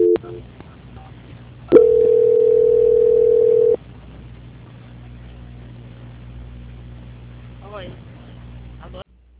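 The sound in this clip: A steady telephone line tone sounds while a call is being transferred. It is loud and flat in pitch for about two seconds, then gives way to a quiet hum on the line with a few faint clicks.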